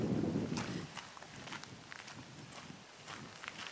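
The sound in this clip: Footsteps walking down a path toward lake Hammarsjön, heading for the jetty. A brief burst of low rustling noise opens, then a run of light, regular steps follows.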